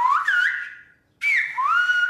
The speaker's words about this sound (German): Alles, was man spricht, kann man pfeifen.